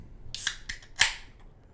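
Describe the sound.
A can of hazy beer, Galaxy Flare from Equilibrium Brewing, is cracked open with a few sharp metallic snaps. The loudest pop comes last and fades into a brief bright fizz.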